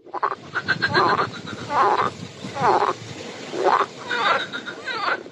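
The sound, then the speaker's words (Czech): Frogs croaking at a pond in the evening: dense, overlapping, rasping croaks rise and fall in repeated surges, loud and continuous with no voices. “To je žabí kvákání.”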